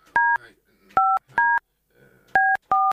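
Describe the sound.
Five telephone keypad tones dial a number, each a short steady beep at uneven intervals, with faint talk murmuring between the presses.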